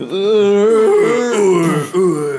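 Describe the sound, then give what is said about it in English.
A voice imitates a giant's groan as it topples in slow motion after an uppercut. It is one long, loud, wavering low moan, with a brief catch near the end before a final stretch. “The giant goes stumbling back and just lands on the ground with this groan as he falls almost like this slow motion”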